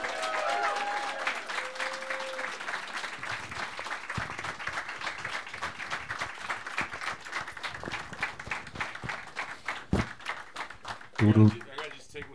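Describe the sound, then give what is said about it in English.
Audience applause welcomes three guests onto a show, dense steady clapping that swells after a quiet opening and holds for several seconds, with a few louder bursts near the end. “And while you applaud for my guests, I'm going to get a drink of water.”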